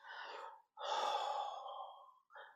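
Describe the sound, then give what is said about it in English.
A deep cleansing breath, breathy and airy with no talk: a short whoosh, a brief pause, a longer drawn-out one, then the start of another. “So take a deep breath, cleansing breath.”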